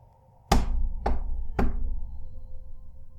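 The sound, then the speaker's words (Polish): Three loud, sharp knocks on a door, evenly spaced about half a second apart, each dying away quickly over a low steady hum, with no voices. “Pukanie do drzwi.”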